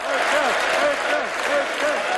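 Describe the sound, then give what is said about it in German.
Applause and cheering fill a hall at a political party youth-organization event in Dresden. Dense clapping roars steadily while many voices shout and cheer over it throughout. “Björn Höcke lächelte geschmeichelt über den Jubel im Saal.”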